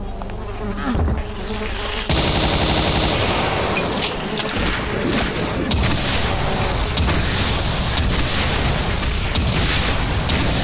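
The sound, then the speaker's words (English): A rocket explodes in a video game, breaking in abruptly after about two seconds of buzzing game noise, then a loud, sustained roaring rumble with rapid crackling bursts like gunfire continues to the end. “Oh, that's right. Just walk right in front of my fucking rocket.”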